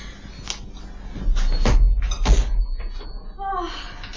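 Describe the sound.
A door is opened, with a few clicks and soft knocks followed by two low thuds, and a voice begins speaking near the end.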